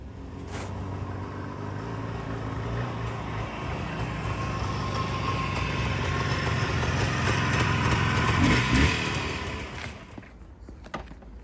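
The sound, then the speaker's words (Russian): An old, touched-up motorcycle engine runs with a steady low rumble for about ten seconds, swelling slightly, then easing off near the end, with no talk. “Стопудово на своем мотике катается.”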